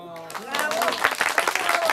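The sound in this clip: Applause breaks out as the curtain falls on an afternoon Kasperl puppet show, a dense patter of many hands clapping that holds steady, with voices mixed in.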